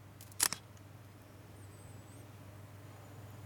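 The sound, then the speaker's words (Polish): A smartphone camera shutter clicks as an Android app takes a photo: one sharp, bright click with a softer echo right after it, over a low steady hum, with no talk. “Wykonaj zdjęcie. Rejestruję. Wykonaj zdjęcie.”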